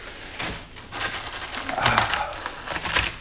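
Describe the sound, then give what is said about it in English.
Dry ramen noodles being crushed into pieces before cooking, a brittle, crackling crunch that comes in a few rough bursts of splintering noise. “And this crushing up the ramen before I put it in the thing.”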